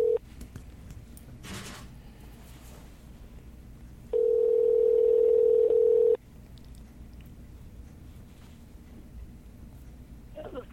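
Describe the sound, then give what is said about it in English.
Telephone dial tone as a call is placed to a doctor, a steady loud hum lasting about two seconds over quiet background noise, with a brief tone at the start. “Dialing Dr. Allen. Here we go.”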